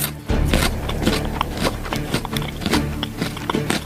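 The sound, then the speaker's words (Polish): Crunching as someone bites into and chews a raw Jerusalem artichoke slice for the first time: many crisp, irregular crunches and clicks, fairly loud and close, with no talking. “Pierwszy raz w życiu do ust wkładam plasterek topinamburu.”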